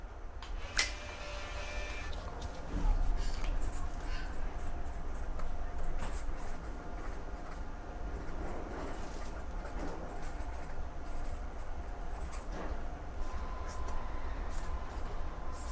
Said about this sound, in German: Und da hole ich jetzt auch gleich das Gästebuch raus, dass ja. Sie sich da eintragen können. Unser Gästebuch der Riesen.